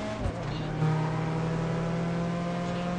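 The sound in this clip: Engine of an Audi race car in a driving video game, a steady droning hum that holds one low pitch with a slight lift in loudness partway through.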